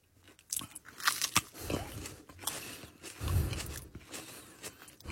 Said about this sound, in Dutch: Dat vinden mensen altijd leuk op de radio, als er wordt gegeten.